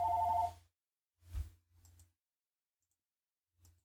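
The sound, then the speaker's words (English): A telephone rings with a brief warbling electronic tone at the start, followed by a few soft low thumps and stretches of near silence. “All right, that was the phone”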